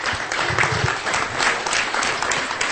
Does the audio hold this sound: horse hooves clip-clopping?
no